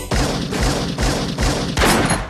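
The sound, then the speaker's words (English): Gunfire: a rapid string of loud, heavy shots booming in close succession as one continuous, dense burst of noise with no voices. “I can't believe you shot me.”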